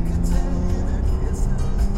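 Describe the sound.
A car engine pulls in second gear as it accelerates out of a sharp corner on a road, giving a loud, steady, low-pitched drone with a continuous engine hum.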